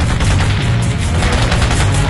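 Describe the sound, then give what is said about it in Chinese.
A burst of machine-gun fire sweeps a tall building on Nanjing Road during street fighting: dense, rapid shots blur into a loud, continuous rumbling roar for the whole stretch. “然而就当他们刚要把红旗升起，一阵弹雨袭来，旗声断了。”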